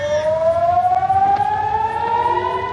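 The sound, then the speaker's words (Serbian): A rocket attack warning siren at the port of Haifa in northern Israel gives a loud, steady wail whose pitch climbs slowly and evenly throughout, with no voices. “Zvuk sirene za raketni napad odjeknuo je u luci Haifa i nekoliko područja na sjeveru Izraela”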